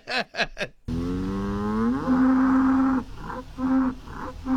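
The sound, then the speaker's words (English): Ankole cattle mooing: a long, low, drawn-out moo that swells and holds steady, followed by a few shorter, throaty calls in a broken rhythm. “Do you want to hear that, fam? Here is the sound of an Ankole moo.”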